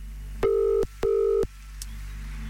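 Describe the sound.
Ringback tone of an outgoing telephone call: two steady, medium-pitched beeps of equal length, separated by a brief gap, over a faint low hum.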